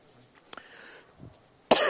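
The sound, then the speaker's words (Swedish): Coughing and throat clearing from someone with a lingering cough during a church Bible reading: a couple of short sharp coughs, a low throaty rumble, then a louder harsh cough at the end. “Jag tog en liten hosta med mig från USA som ännu plågar, så ni får klara av att jag lite hostar och harklar.”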